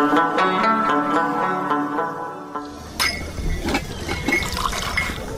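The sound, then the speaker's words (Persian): Tea from a thermos pouring into a cup, a steady, full liquid stream with a ringing tonal quality that gives way partway through to a noisier, splashier trickle, heard without talk. “بیخی پرش نکو که باز از پیشم چپا میشه”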